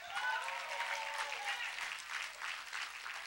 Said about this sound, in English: Now, I thought y'all would have had a better clap than that.